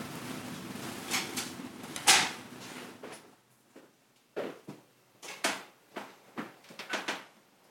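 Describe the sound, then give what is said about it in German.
A tabernacle door is opened during a church rosary devotion, giving soft wooden clunks and scrapes, one louder knock near the start, then a series of quieter, spaced knocks and clicks. “Und so darf ich jetzt gleich den Tabernakel öffnen.”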